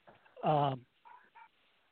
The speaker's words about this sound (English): Pardon my dog barking there